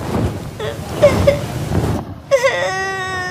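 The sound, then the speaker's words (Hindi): A girl crying and sobbing, with broken whimpers and gasping sobs at first, then a louder drawn-out wail near the end. “इतना मत रो बेटी, इधर मेरे पास आ जाओ।”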